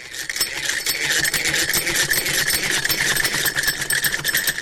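A sewing machine runs in a tailoring course class in Khushal Khan, Kabul. It gives a loud, steady, fast rattling whir that continues throughout without pause.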